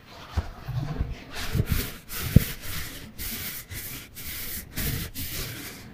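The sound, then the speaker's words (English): A hand rubs a super soft weighted blanket in repeated soft, brushing strokes with an uneven rhythm and a few small thumps, all fairly quiet. “That is the texture of my super soft weighted blanket.”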